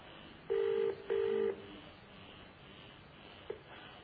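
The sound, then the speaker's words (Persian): A telephone call to a TV channel being dialled: two short keypad tones of equal length in quick succession, followed a little later by a faint click. “بریم کلیپ بعدی رو ببینیم که تماس بنده در وسط برنامه شبکه کلمه بود.”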